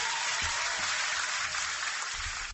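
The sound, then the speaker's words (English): Comedy show audience applauding a performer: dense, sustained clapping with cheering, holding at a steady loud level before a quick fade at the end. “Give it a round of applause one more time for Chad, everybody.”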